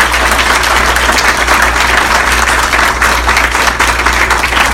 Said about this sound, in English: So I just want to thank all of you guys for joining us here today, and to big round of applause for our guest of honor.